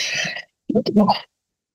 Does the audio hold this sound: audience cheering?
no